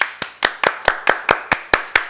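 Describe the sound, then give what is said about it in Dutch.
Applause after a one-minute pitch: a steady run of sharp, evenly spaced claps, about ten in all, crisp and moderately loud with no talk over them. “Applaus.”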